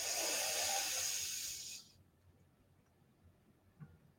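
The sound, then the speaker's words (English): A slow, deep breath during a relaxation exercise: a long, hissy, airy stream of air for almost two seconds that fades out, leaving near silence with a faint soft sound near the end. “Last one, breathe in”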